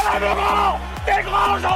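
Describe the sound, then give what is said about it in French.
Basketball supporters chant for Boulazac Basket Dordogne: a loud sung chant of many voices in two rhythmic phrases. “À vos côtés, c'est le chant des supporters. Ils ont vibré. Crié. Soutenu leur club.”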